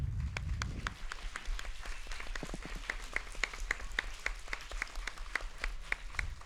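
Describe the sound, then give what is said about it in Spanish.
Applause from a school class at an award presentation in a school: faint, fairly even clapping that continues steadily throughout. “Pues vamos a ello. Fuerte aplauso”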